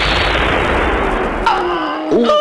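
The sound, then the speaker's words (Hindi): Enemy gunfire in battle: a loud, broad blast whose rumbling tail fades over about a second and a half, followed by sustained tonal sounds. “अभी Vikram lieutenant नवीन को घसीटते हुए bunker की ओर ले ही जा रहे थे कि दुश्मन की एक गोली उनकी छाती में आ लगी।”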